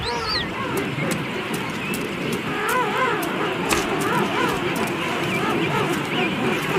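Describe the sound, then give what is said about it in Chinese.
Bluebird chick calling in many short, wavering chirps over a dense, constant noisy background, with a few sharp clicks scattered through. “青鸟听到了雏鸟的叫声，迅速赶来保护它。”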